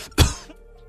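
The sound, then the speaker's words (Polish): A single sharp, loud cough from a man, with a quick burst and a short fading tail, standing alone with no talk around it. “Sorry, bo się skaszlałem.”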